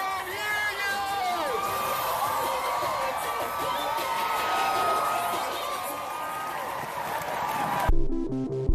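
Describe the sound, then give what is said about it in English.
A large street crowd at Chicago's Pride celebration cheers and whoops, with voices shouting over a dense, steady roar that swells mid-way. The crowd sound cuts off abruptly near the end. “Every year, hundreds of thousands of people take to the streets of Chicago to celebrate our city's LGBTQ communities. It sounds something like this.”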